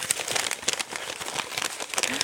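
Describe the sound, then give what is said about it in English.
Paper crinkling and tearing as an envelope is opened, a continuous busy rustle with small crackles at moderate loudness and no voices. “Let's open that envelope and see the answers.”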